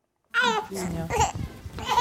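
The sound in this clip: A baby babbling on a care farm set in a converted former ox stable, giving a few high, warbling vocal bursts in quick succession after a moment of silence.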